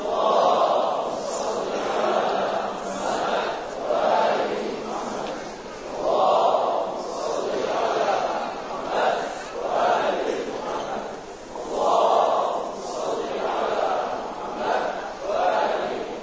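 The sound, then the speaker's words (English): A crowd reciting salawat in unison to welcome a speaker at a religious gathering, many voices chanting together in repeated rhythmic waves that rise and fall steadily throughout. “please welcome His Eminence Sayyid Mahdi Mudarrisi with three loud salawat ala Muhammad wa Ali Muhammad.”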